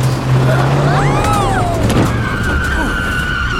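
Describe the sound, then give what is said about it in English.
A car accelerates hard as the driver steps on the gas, a loud, continuous roar with squealing, sweeping tones over it that holds steady from start to end. “Hold on to your tater tots, everybody. Grandma G-Force is gonna step on the gas.”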